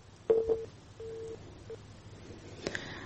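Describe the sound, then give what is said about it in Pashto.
Faint tones on a telephone line after a dropped call: a few short beeps and one longer steady tone at the same middle pitch, over low line hiss, followed near the end by a brief click-like burst. “د تلیفون کرښې خراب دي او زموږ د میلمنو اړیکې پرې کیږي.”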